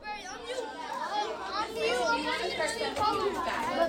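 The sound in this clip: Lively chatter of third-grade children in a classroom during a puppet-making session, with many young voices overlapping at once in a steady, busy hubbub.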